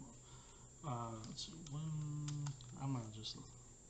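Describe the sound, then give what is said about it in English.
Computer keyboard typing, with scattered sharp key clacks sounding faintly beneath a voice talking steadily in the foreground. “I love hearing just the keyboard clack in the background.”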